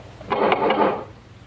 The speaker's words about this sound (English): The door opens.